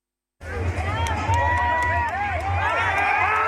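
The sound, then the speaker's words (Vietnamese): Crowd of football fans cheering in Hanoi's streets around My Dinh stadium and Le Duc Tho street, celebrating Vietnam's national team victory over Thailand with flags and team shirts. After a brief silence, a loud steady din of many overlapping shouting voices over a low rumble. “Hàng nghìn cổ động viên mang theo cờ Tổ quốc, khoác áo đội tuyển cùng nhau hô vang Việt Nam Hồ Chí Minh,”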